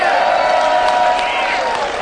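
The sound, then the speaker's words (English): A studio audience cheering and whooping, a loud, dense burst of many voices over about two seconds. “We want to say hi to the folks behind us. This is our studio audience. We call them the Wild Bunch because they are.”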